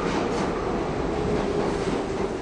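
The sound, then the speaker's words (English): A New York City subway train roars steadily, with a dense, even rush of wheel and track noise and a faint sustained hum running through it, without pauses. “This is a New York City subway train.”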